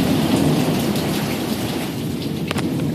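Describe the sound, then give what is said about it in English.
Thunder rumbling through a thunderstorm beneath heavy rain, a loud, steady roar with low rumble and dense rain hiss throughout rather than a single sharp crack. “Here's a sound of a good thunderclap.”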